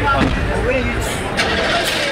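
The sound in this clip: A Humvee ambulance engine rumbles as a low, steady drone while people talk over it.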